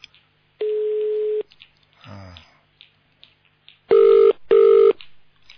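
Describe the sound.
Telephone line tones: one long steady mid-pitched beep, a brief murmur of a voice, then two shorter identical beeps in quick succession, loud and clean against a quiet line.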